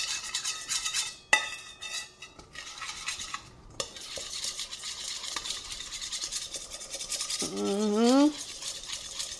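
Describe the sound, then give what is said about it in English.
Egg being mixed into Congo bar batter with repeated scraping, swishing stirring strokes and occasional sharper clinks of utensil against bowl. A voice speaks briefly near the end. “Once it's all pretty well mixed in, take your second egg and do the same. Mix it all in.”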